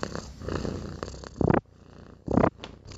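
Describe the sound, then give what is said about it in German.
A cat purring, a low rumbling purr in rhythmic cycles, with two louder surges standing out from the softer steady rumble. “Das war meine Katze Schnurri.”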